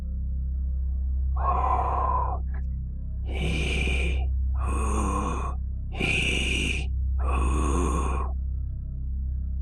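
Loud breathing from an unseen person nearby: five drawn-out, rasping breaths in a steady rhythm, each about a second long, over a low constant hum.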